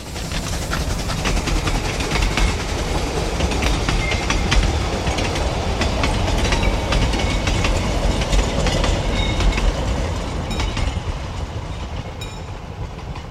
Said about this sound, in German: Der Zug fährt hier 8:55 vorbei.